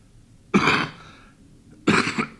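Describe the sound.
Someone with a cold coughs, a few harsh, loud bursts separated by short quiet gaps, the later ones coming in quick succession.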